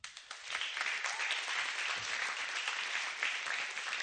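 Applause for church musicians: a dense, steady clatter of many hands clapping that starts quickly and holds at an even, fairly loud level throughout.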